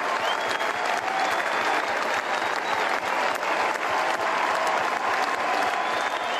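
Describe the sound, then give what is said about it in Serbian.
Sustained applause from a large crowd at Roland Garros as Novak Djokovic receives the runner-up trophy, a dense, even roar of clapping that stays loud and steady throughout, with faint crowd noise mixed in. “I ovaj aplauz je tamo trajao, boga mi, 2 minute i nešto, kada je primao taj drugi pehar, odnosno pehar za drugo mjesto, Novak Đoković u Roland Garrosu”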